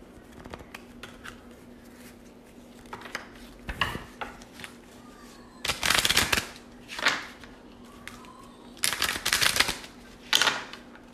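Tarot cards being shuffled and pulled during a reading, heard as faint papery riffles and sharp snaps that come in several short bursts, with quiet stretches in between.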